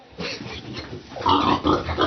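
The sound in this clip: Rough, snorting grunts from a wild boar and a sow, sounding as a few noisy bursts that grow louder and denser in the second half, with no voices.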